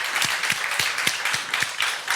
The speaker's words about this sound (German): Ich glaube, das ist im Applaus untergegangen.